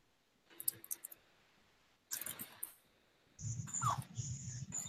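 A computer mouse gives a few soft, quick clicks close together, followed by faint rustling and a brief low murmur of background noise.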